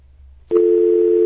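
A telephone line tone on a radio call-in show: after a moment of near silence, a click and then a steady, loud, unwavering tone that holds to the end.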